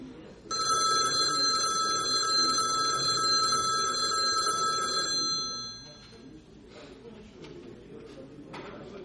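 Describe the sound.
A telephone bell rings continuously for about five seconds, a bright metallic trill over a low background murmur, then stops, leaving only quiet background noise.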